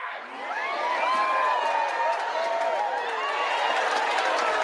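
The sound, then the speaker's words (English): A studio audience cheers and whoops as a sound effect, a steady wash of crowd noise with shrill whistling voices holding throughout. “Wow. Our studio audience loves it.”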